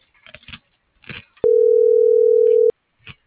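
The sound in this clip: A telephone voicemail tone sounds as one long, steady, mid-pitched beep lasting over a second, with short bursts of talk before and after it.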